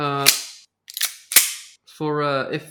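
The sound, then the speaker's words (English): Three sharp, snapping shots from an airsoft gun crack out in quick succession, with a voice talking just before and just after them. “I didn't bring that this time because we went to Airsoft the other day. So I actually have, instead of a podcast holster, I have a podcasting gun.”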